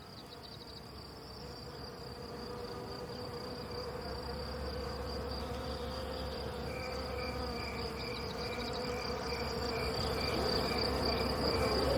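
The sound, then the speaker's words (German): Steady humming and buzzing of a vast swarm of wild bees, a dense, continuous insect drone with shrill, sustained high tones, holding without pause and swelling slightly louder toward the end. “Es ist das rhythmische Flüstern der Bäume. Es sind die von Millionen wilder Bienenhorden gesummten Akkorde.”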